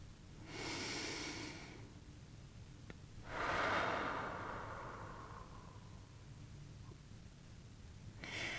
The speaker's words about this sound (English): if it feels right, when you're ready, you can take a breath and let them go.